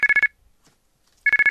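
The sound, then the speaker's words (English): Mobile phone ringtone ringing in two bursts of four quick, bright, high-pitched beeps, separated by a short silent pause. “Alright, yeah, that was my ringtone.”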